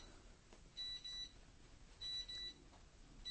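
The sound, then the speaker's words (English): A mobile phone beeps in two brief clusters of high, thin electronic tones, faint over a quiet hiss with no talk. “that is my phone and it shouldn't be. I thought it was off, which it is now.”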